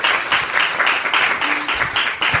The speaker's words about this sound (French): franchement, je pense qu'il y a un petit applaudissement de mérité.